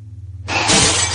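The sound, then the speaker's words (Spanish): A mirror shatters as a head hits it: after a low, pulsing hum, a sudden loud crash of breaking glass bursts in and sustains as a bright, crackling spray of shards until the end. “De pronto, se golpea la cabeza con el espejo.”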